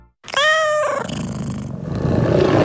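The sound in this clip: Tiger roaring: a loud, harmonic, growling call that bursts in suddenly, then breaks down into a rough, noisy rumble that carries on to the end.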